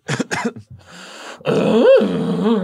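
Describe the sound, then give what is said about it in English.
A man groans on request: a few short grunting bursts, a brief pause, then a longer, strained, rough groan whose pitch wavers up and down before trailing off. “Just make a noise. Just make like a groan and give us an update of how you're feeling.”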